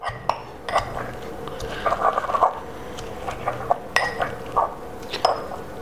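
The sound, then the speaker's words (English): Chopped parsley is ground into a chunky mixture, giving fairly faint, irregular scraping punctuated by sharp clinks and knocks of utensil on dish. “I want to grind the parsley as well to bring out all the flavor of it. And grind it up till you've got a nice chunky mixture.”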